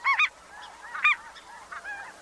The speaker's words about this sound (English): the Ross's goose evolved to be about two-thirds the size of a snow goose, with a noticeably shorter neck, smaller bill, and higher-pitched voice, too.